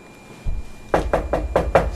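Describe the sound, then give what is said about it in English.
Knocking on a door: a soft thump, then five quick, evenly spaced loud raps in a steady rhythm, heard alone with no voices. “Wait a minute. Is that someone knocking?”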